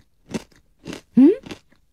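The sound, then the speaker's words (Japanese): Crisp crunching of spicy, chili-flavored kaki no tane rice crackers being bitten and chewed: a few sharp, dry crunches spaced apart, with a brief hummed 'mm' between them and no talk. “見た目はほんと柿の種、はい、 ボリボリ何個かどうぞ。”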